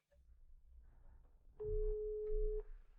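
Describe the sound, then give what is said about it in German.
A telephone ringback tone sounds while a call is being placed: one steady, even tone lasting about a second, rising out of a low background rumble and then cutting off. “darfst du jetzt mal Nina anrufen”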